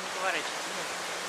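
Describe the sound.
Ocean waves break at a surf spot with a steady, broad rushing wash and no distinct individual breakers. A brief voice sounds near the start.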